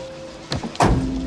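A car door opening makes a short latch click followed by a louder, heavier thunk, with a low steady hum underneath.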